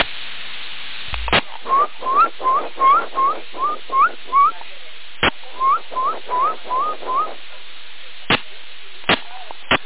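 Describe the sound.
Whistling over CB radio: many short, rising whistled chirps in two quick bursts, thin and band-limited, with sharp radio clicks between and after them.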